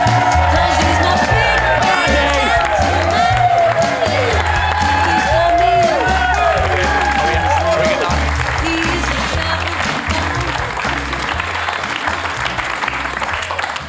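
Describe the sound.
A studio audience applauds and cheers an Irish rugby player arriving as a guest: loud, dense clapping with whoops early on, holding steady before tapering off at the very end.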